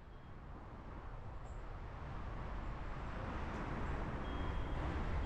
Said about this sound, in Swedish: Det här är alltså en cyklist som kör med någon form av GoPro. Ja, exakt. Och han, för er som inte ser det här nu, så är det här i London.